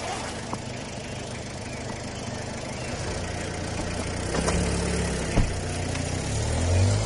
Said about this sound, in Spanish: ve el coche salir por la cancela